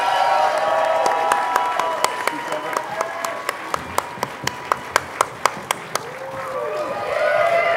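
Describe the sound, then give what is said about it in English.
Enthusiastic audience applause and cheering at a live show, a standing ovation for two guests welcomed to the stage. Dense clapping with crowd voices runs throughout, with sharper individual claps punctuating the middle. “Standing ovation, ladies and gentlemen.”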